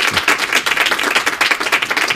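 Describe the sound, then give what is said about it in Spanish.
Applause sound effect fired from a studio applause button: dense, even clapping that stays at a steady level for about two seconds with no voices over it. “Aplaudisco accionado, es verdad.”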